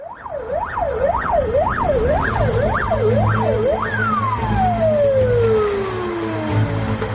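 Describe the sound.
Ambulance sirens wail through city streets during a coronavirus epidemic, the tone rising and falling about seven times before one long, steadily falling sweep, loud over a continuous low engine rumble.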